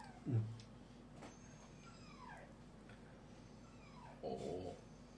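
A dog shut in a kitchen whines faintly. Soft whimpers come in two brief bursts several seconds apart, with thin, high whistling cries falling in pitch between them.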